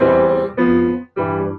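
A rising fifth sequence, a Western classical harmony exercise, plays on an instrument as three sustained, rich chords in succession. A short gap falls before the last chord, and no voices are heard.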